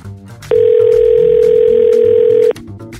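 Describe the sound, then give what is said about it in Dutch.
A telephone tone sounds as a call is placed: one steady, unbroken pitch lasting about two seconds that starts and stops abruptly, with faint background sound before and after. “dus ik pak mijn telefoon er even bij. En vandaag gaan we bellen met Jan Terlouw.”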